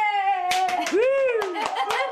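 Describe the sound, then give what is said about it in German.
Studio applause on a talk show: scattered sharp hand claps at irregular intervals, mixed with sustained voiced sounds that glide in pitch. “Dafür gibt es jetzt einen Applaus für die BMW-Erbin.”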